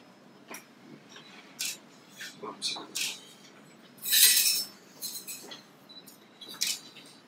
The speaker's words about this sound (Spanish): Debe de quedar muy delgado. Una vez que haya quedado dejado, vamos a ocupar mi cortador.